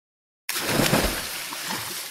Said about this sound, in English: Drop it in the water.